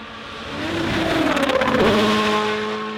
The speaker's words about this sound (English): This is as exciting as it gets. The cars are going to be flying here in Finland.